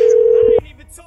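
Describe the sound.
Telephone dial tone while placing a call: a loud, steady single-pitch tone holds for about half a second, then cuts off as a voice begins to speak.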